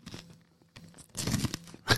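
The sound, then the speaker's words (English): Fisher's caramel popcorn crunches in close ASMR-style chewing, with a few crisp crackling bursts separated by quiet gaps and a loud final crunch. “if you've never had Fisher's caramel popcorn. So you have oh, wait, I'm doing ASMR.”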